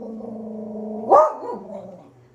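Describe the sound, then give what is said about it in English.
A dog gives a single sharp, loud bark that stands out over a steady tonal hum, then trails off into quieter sound. “Please excuse my dog. He's an asshole.”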